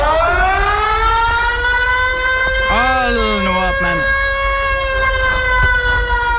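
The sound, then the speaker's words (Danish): A civil defense air-raid siren sounds during a test, a loud sustained wail with strong harmonics and a slightly rising pitch. A voice briefly speaks over it partway through. “Fordi du ved jo godt, at der i dag, det ved vi alle sammen, fordi vi hørte det, har været et test af luftalarmerne.”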